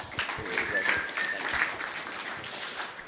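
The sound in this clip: Applause from a church audience welcoming the organisation's president to the stage, a steady wash of clapping hands that carries on throughout with voices mixed in.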